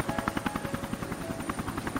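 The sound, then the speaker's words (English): Steady, fast thumping rotor chop from helicopters, three of them coming in over a group of trees to set down, faint and continuous throughout. “coming over a grouping of trees, you see three helicopters coming and setting down.”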